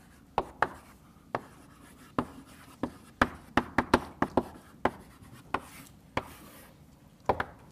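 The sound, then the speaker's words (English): Writing on a board during a lecture on greedy algorithms: many faint, sharp taps and short strokes in an irregular rhythm, heard alone with no talking. “Maybe I'll start by writing down the algorithm. It's a little long.”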